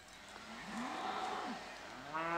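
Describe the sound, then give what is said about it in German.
Cattle mooing on a farm paddock, a herd that includes a slaughter bull: a few low, drawn-out moos, some overlapping, fairly quiet, with another moo starting at the very end. “Eigentlich muss nur der Schlachtbulle auf den Hof. Doch der bleibt ruhiger, wenn die anderen Rinder dabei sind.”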